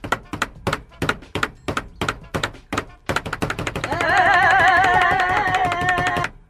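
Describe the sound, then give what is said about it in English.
Heads drum on a table in a run of dull, evenly spaced thunks that then quicken into a denser rhythm, while a voice hums or sings along over the later knocking. “Do you know that we can play drums together on the table with our heads?”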